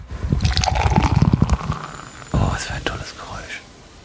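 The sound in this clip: Drink pours from a blue 0.75 litre can into glasses, first as a dense gurgling glug, then a second burst of pouring with fizzing foam.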